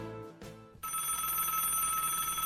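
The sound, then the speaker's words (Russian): A telephone rings. After a short stretch of other tonal sound, a bright, buzzing ring starts abruptly and carries on steadily, fairly faint, to the end. “А звонок телефона прозвучал, как раскат грома.”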